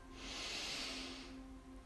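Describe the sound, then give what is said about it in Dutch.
A deep inhalation during a guided breathing meditation: one steady, airy hiss lasting about two seconds that swells a little and then eases, with a faint low hum underneath. “Adem diep in.”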